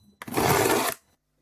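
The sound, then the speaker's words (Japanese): Cellophane tape is pulled off a roll in one continuous rip lasting under a second, a loud, harsh tearing screech that starts abruptly and cuts off. “セロテープ。”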